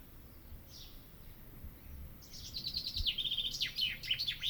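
A bird calling: a faint single chirp, then a run of rapid, high chirps and trills, quiet over a low steady background rumble.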